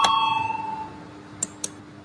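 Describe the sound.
A single bell-like ding calls a vote in the Latvian parliament. It rings out bright and sustained, then fades slowly over about a second. Two short, sharp clicks follow, with no talk.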